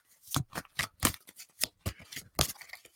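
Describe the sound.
A deck of cards is shuffled during a card reading, giving many short, papery riffling bursts in an uneven rhythm, moderately loud with no voices.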